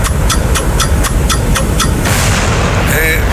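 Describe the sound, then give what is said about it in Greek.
A bomb sound effect plays in a TV game-show round: rapid, even ticking, then a loud, broad burst of noise, all over a dense, noisy background. “Σταμάτα το χρόνο πριν σκάσει η βόμβα.”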